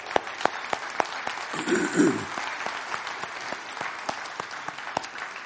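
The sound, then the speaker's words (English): Audience applause welcoming newcomers at a morning church-style gathering, made of many steady, crisp hand claps that hold an even level from start to finish. “And hey, let's give it up for our new people this morning.”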